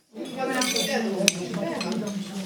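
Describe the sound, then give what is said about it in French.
Plates and cutlery clink and clatter as diners each take a plate at a shared meal, a steady jumble of light metallic and china knocks with one sharper clink, and people talk alongside. “Bon appétit. Chacun prend son assiette.”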